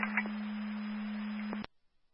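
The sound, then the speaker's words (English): A radio dispatch alert tone sounds as one steady, pure low tone held for about a second and a half, then cuts off abruptly into silence. “You have the correct tones, or correct frequencies.”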